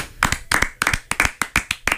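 Applause from a round of hand clapping: many sharp, loud claps in quick, uneven bursts, with no voices over them.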